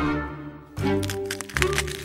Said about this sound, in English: The small eggs crack.